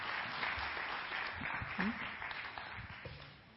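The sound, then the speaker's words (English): Applause from an audience welcoming a guest speaker to a worship gathering, a quiet, steady wash of clapping lasting throughout. “Would you put your hands together for him as we welcome Tempe to come and share with us?”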